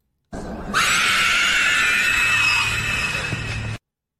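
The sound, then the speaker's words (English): A Nazgul shriek from Lord of the Rings, a single loud, piercing, high screech that jumps up sharply and holds for about three seconds before cutting off. “Lord of the Rings. Yes, sir. It is the Nazgul from Lord of the Rings.”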